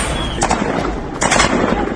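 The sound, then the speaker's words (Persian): Gunfire by security forces during a street protest: a few sharp cracking bursts over a dense, noisy outdoor background. “شلیک مامورا”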